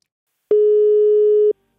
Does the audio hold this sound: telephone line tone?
yes